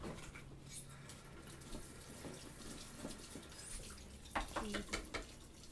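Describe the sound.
Water runs steadily from a kitchen tap into a sink with a constant splashing hiss. Near the end a few brief knocks sound as a kitchen masher is put into the sink.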